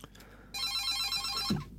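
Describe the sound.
A telephone rings on the open call-in line of a community radio station: one high, trilling electronic ring about a second long, over a faint low hum.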